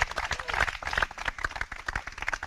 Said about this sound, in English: let's have some applause here out in the woods,